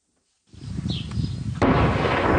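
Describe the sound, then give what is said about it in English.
Israeli artillery shelling in Lebanon: a rumbling blast rises out of silence, then a second, louder boom breaks in and its heavy roar carries on to the end. “That is the sound of Lebanon's ceasefire today. As Israeli shelling and fighting by Hezbollah militants continues,”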